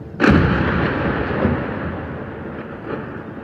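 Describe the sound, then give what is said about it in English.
Airstrikes and shelling at night in Gaza: a heavy, sudden blast opens into a long, rolling rumble, with a couple of weaker thuds swelling up later through the sustained roar. “NPR's reporter in Gaza, Anas Baba, recorded that and also several other big airstrikes and shelling and bombs throughout the night.”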